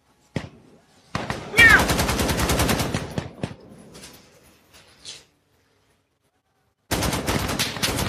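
Automatic gunfire from a video game comes in several rapid bursts of rattling shots, with a long dense burst early on and quiet gaps before a final loud volley.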